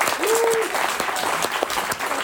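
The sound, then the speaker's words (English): Audience applause at a live show, given in answer to a show-of-hands question: a thick, steady clatter of many hands clapping from start to finish, with some voices mixed in. “By round of applause, who has never seen Dune?”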